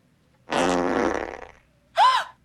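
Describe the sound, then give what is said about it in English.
A fart machine sound effect lets out two blasts: a long, buzzy, rumbling one lasting about a second, then a short, louder, higher-pitched squeak that bends up and back down. “David inspects the fart machine and Stephanie glares in disbelief. Where did that come from?”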